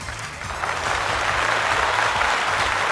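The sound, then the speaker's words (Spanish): Dense applause from a crowd, a steady wash of clapping that holds at moderate loudness throughout. “a Gibran Orozco, pues un aplauso”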